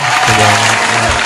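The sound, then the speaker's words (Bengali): Loud audience applause on a quiz show, a dense continuous roar of clapping that stays full and even throughout the short stretch. “সুতরাং Kylian Mbappe, জোরে হাত তালি।”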